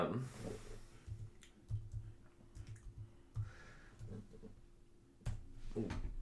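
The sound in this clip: Typing on a computer keyboard produces many irregular, faint clicks and taps in uneven bursts over a low steady hum.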